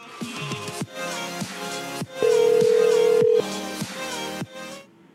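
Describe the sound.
Electronic tones sound from a phone in a few sustained beeps of differing pitch, with one long, louder steady tone in the middle before the sequence stops.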